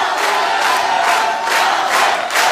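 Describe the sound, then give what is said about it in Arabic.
An audience cheers in a theater at a singing show, a loud, steady roar of many shouting voices that swells slightly in waves. “مفيش شك تشجيع كبير جدا في المسرح هنا دلوقتي”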